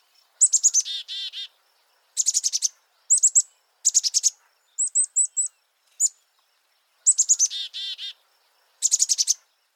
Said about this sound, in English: They're known for their very recognizable chickadee-dee-dee call,